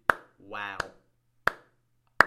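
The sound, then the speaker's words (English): One person applauds with four slow, sharp single claps, evenly spaced, and a brief voice sounds between the first two. “I'm actually going to applaud this lady.”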